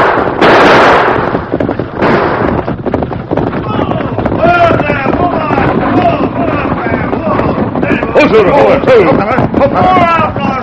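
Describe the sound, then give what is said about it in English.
Gunfire from a stagecoach holdup shootout in a western radio drama: loud, sharp bursts early on, then excited voices carrying on over a steady rumbling background. “Use your guns”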